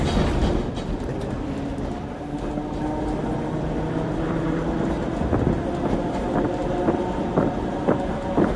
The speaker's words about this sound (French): Oh, et vite, le tram va partir.